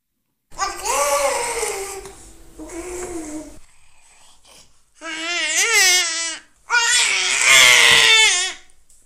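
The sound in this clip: A small child's voice imitates a velociraptor with shrill, wavering, screechy cries in four loud drawn-out bursts, with a quieter breathy stretch between the second and third.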